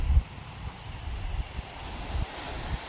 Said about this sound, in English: There's a bit of wind on the left-hand side of my mic. But to the right, it's really heavy.